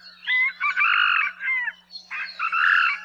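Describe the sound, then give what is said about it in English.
Crowing of the Hawaiian moa, a wild chicken whose cock-a-doodle-doo ends in a shortened final syllable: two clear, loud bursts of several choppy syllables each, over a faint steady low hum. “The last syllable in the rooster's four-syllable cock-a-doodle-doo call is much shorter in the moa than the domestic chicken. Here's the call of the moa.”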